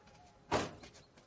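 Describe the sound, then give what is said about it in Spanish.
A military car's passenger door opens in a 1944 wartime setting: one short, muffled clunk of the latch and door stands out against a quiet background. “El conductor abre la puerta del copiloto a un hombre trajeado.”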